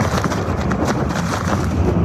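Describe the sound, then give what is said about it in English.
Strong storm wind and rain roar outdoors in a loud, steady rush of noise. The gusts buffet in uneven pulses with no break. “These are the worst winds that we've gotten all night.”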